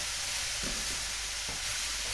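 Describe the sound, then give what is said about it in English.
Noodles stir-frying in a pan give a steady, loud sizzle. Two brief stirring scrapes break through the continuous hiss as the mixture is kept moving. “So that's the noodles in, and again we're gonna keep it moving.”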